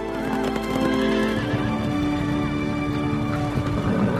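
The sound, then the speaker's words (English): Fresh horses are ridden side by side back to a match. Continuous clip-clopping hoofbeats mix with loud whinnying and neighing, filling the whole stretch without pause. “They return to the match, riding side by side on fresh horses.”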